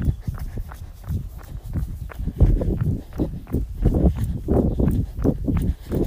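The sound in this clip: Footsteps of a man heading out for a run: steady, rhythmic, low thudding strides that stay fairly loud and continue without a break.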